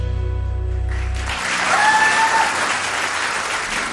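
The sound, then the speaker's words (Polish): Applause from a concert audience in a studio: dense, steady clapping swells in as a sustained low musical note fades, then continues evenly and loud to the end. “skąd mogą pochodzić te oklaski, jak nie ze studia imienia Agnieszki Osieckiej”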